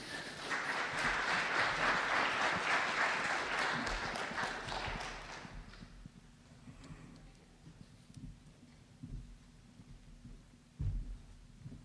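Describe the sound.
Audience applause welcoming a speaker to a religious talk, loud and dense for about five seconds, then dying away to near quiet broken by a few scattered claps and thumps.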